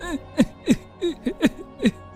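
A man sobbing in a short run of halting, wavering vocal bursts, about six catches of breath with uneven pitch, fairly soft and with no words.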